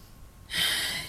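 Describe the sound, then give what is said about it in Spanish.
One deep breath during a Spanish-language faith talk: brief near-quiet, then a sudden, strong, airy rush of breath that holds steady for about half a second and is fairly loud. “este respiro es para ti”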